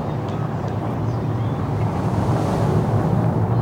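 Strong wind blowing near a volcano, heard as a steady, loud, low rumbling roar with a rushing hiss that holds without a break throughout.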